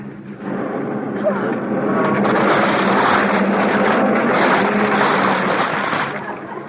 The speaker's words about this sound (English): Ah, the motor! It's running! Oh, hooray! Jump in the car!